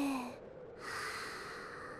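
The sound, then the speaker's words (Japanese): Soft human breathing during a guided deep-breathing exercise: one breath fades out, a brief near-silent pause follows, then a long, steady, airy breath continues faintly to the end, with no speech. “吸って吐いて”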